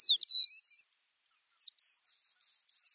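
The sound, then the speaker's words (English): Tree sparrow, a winter visitor that breeds at the tree line in northern Canada and Alaska, giving calls and song: thin, high whistled notes and sharp chirps in quick bursts, clear and loud against silence. “The tree sparrow is a winter visitor from northern Canada and Alaska, where it breeds at the edge of tree line. This species' calls and song are always a treat to hear”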